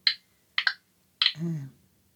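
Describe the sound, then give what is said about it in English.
Recorded sounds given off by a cut grapevine play as a few short, sharp clicks spaced apart, the second one doubled, followed by a brief voice. “For example, grapevine. This is one grapevine cut.”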